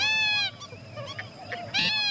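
Purple gallinule calling in a marsh: two loud, nasal, honking calls with a strongly harmonic tone, one at the start and one near the end, with softer, scattered sounds between them.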